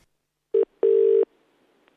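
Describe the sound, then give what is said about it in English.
A phone line tone as a call is placed, with a short steady burst followed by a longer one of the same low pitch, loud against silence, then a faint click at the end. “I've just been given his number, so we ring him? Yeah, go on. Let's ring him.”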